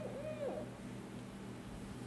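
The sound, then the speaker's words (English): A barred owl gives one short hooting call, a wavering tone that bends up and then down. It sounds faint and stands alone over a low, steady hum, with nothing following. “It's the sound of a barred owl.”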